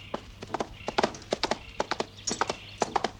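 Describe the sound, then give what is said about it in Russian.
Horse hooves clip-clop on a road running along a tree-covered slope, a long run of steady, evenly spaced hoofbeats with sharp, clear strikes and no voices. “Дорога идет вдоль поросшего деревьями склона. Спешившись, Торрес привязывает лошадь к кусту.”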